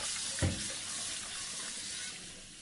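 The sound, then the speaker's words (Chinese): Water runs from a tap as surgical instruments are washed at a sink, making a steady, even hiss that stays constant throughout. “先把器械拿去送洗，等一下放进高温高压灭菌锅，时间刚好来得及。 好，我洗”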